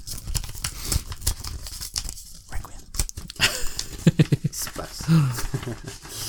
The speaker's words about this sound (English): That is me opening. He's got the card right up to the microphone.